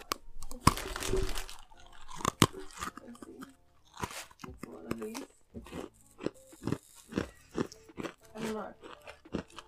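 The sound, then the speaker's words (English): Close, crisp crunching and chewing of protein cookies. Many irregular bites and crunches come in quick bursts, separated by short quieter pauses of mastication. “can I have one of those like cookies? They're protein cookies.”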